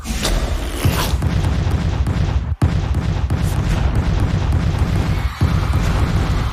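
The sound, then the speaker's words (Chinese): Floating white balls explode in a cartoon game, giving loud, rumbling booms over a dense, busy game soundtrack that stays strong throughout, cut by two brief dropouts. “真正会爆炸的是隐藏在场上部分漂浮着的白球。 嘿嘿，就让我先把这些会爆炸的白球消除掉吧。”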